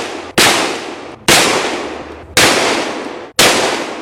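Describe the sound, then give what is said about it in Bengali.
Revolver shots fired at a university convocation ceremony: four sharp, loud bangs at roughly one-second intervals, each with a crisp crack followed by a ringing, slowly fading tail. “সেই অনুষ্ঠানেই বিশ্ববিদ্যালয়ের আচার্য জ্যাকসনকে লক্ষ্য করে তিনি চালিয়ে দিলেন পরপর 5টি গুলি।”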